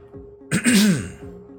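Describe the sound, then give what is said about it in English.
A man clears his throat once in a short, rough burst with a voiced, gravelly edge, set against a faint steady tone in the background. “Standing at the head of a very long table, Avery cleared his throat.”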